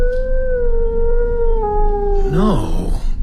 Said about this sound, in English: What was that? Did you hear something? Sound like a howl. One of those damned sheepdogs lost on the moor, probably.